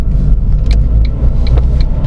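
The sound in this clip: A car is driving, a loud, steady low engine and road rumble that continues throughout, with faint light clicks over it and no voices.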